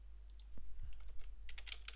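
Quick clicky keystrokes as someone types onto a character sheet during a tabletop gamebook adventure: a few scattered taps, then a denser burst of typing near the end, over a steady low hum.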